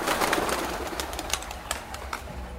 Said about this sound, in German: Durch die geöffnete Glastür fliegt eine Taube hinauf in die Bahnhofshalle. Dreht eine Runde, landet auf einem Sims über den Gästen eines Cafés.